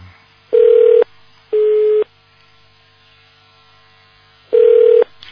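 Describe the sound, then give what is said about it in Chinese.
Telephone tone of a call that is not getting through: three steady mid-pitched beeps, two close together and then one more after a longer pause, sounding clearly over a faint low hum. “好了，现在他的电话不通”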